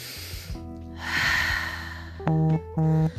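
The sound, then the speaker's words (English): A single deep inhale through the nose for a breathing exercise, a soft airy whoosh lasting under a second. Steady tones sound before it and continue in short pulses afterward. “A few deep breaths in.”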